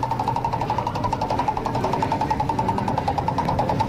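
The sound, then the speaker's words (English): A prize wheel spinning on a morning radio quiz, giving a rapid, even run of ticking clicks that rattles on steadily for about four seconds at moderate loudness. “Let's spin the prize wheel for you, buddy, and we'll see what we can come up with.”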